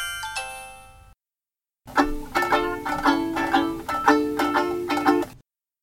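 A phone rings after a number is dialed: a quick run of bright, melodic ringtone tones repeats in a steady pulsing pattern. It begins after a brief chime and a short silence, and is fairly loud with no talking.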